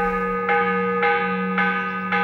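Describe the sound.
A church bell rung as an alarm, struck in a steady, even rhythm about every half second, each loud clang layered over a sustained metallic ringing that never dies away, with no voices.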